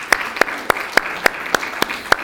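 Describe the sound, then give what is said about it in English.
Eight sharp, evenly spaced claps in a steady rhythm as an audience welcomes the women of New Life for Girls, each crisp slap standing out clearly with no talk. “Would you ladies stand as we welcome you again? Would you show your appreciation for”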